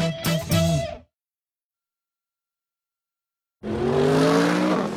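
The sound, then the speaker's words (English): A 2015 Mercedes-Benz CLA accelerates out of a hairpin turn. A short engine burst cuts off into silence, then a second, sustained engine roar rises with steady tonal harmonics. “That isn't just the sound of the 2015 Mercedes-Benz CLA expertly accelerating out of a hairpin turn.”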